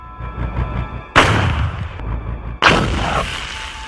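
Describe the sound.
Cannon fire striking a tank in battle, two heavy booming blasts, each with a sharp onset and a long rough roar, over a low rumbling background.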